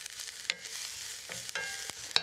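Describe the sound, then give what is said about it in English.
Onions sizzle and are stirred in olive oil in a hot pan, a steady frying hiss broken by a few sharp scraping clicks from the stirring, with no talk. “We've got these pans are hot already. I'm going to fire the onions in. Just give them a bit of a stir around.”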